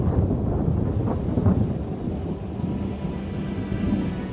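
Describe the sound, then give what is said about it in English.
Thunder rumbles during a thundersnow storm: a deep, continuous low roll that swells and eases without sharp cracks, with some wind noise mixed in. “thunder snow, lightning strikes, holy smoke, totally lit up the sky.”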